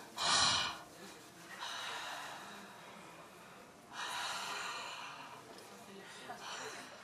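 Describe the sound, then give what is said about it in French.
Breath is blown into cupped hands to warm them against the cold. A short, sharp breath at the start is followed by a few longer, soft, airy exhales with quiet gaps between them. “on prend son souffle et on met les mains devant notre bouche et on souffle”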